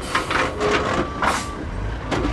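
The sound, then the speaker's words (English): A long red dump truck reverses toward the edge of a huge landfill pit, with loud heavy engine and mechanical noise in repeated bursts and brief faint tones mixed in. “Outside Waggaman, Louisiana, a long red dump truck backs up to the edge of a vast hole 140 acres big and about five stories deep”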